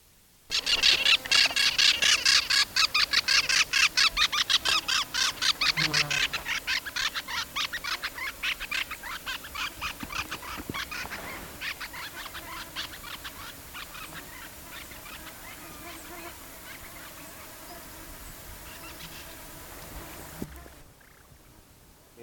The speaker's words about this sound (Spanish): Que sonó es un citácido, un periquito, algo más grande que un brotogeris, cola larga, por debajo es amarilloso, por encima es verde. Dos individuos pasan al vuelo